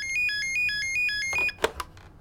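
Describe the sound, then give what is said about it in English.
An electronic telephone ringtone repeats in a few short, bright, high-pitched warbling pulses, then gives way to a few louder clattering knocks near the end. “The phone has just rung.”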